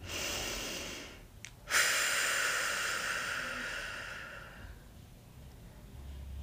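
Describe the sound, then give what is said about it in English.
A deep breath taken during a guided gratitude exercise: a steady airy inhale, a brief pause, then a long, louder hissing exhale that gradually fades away. “Take a deep breath.”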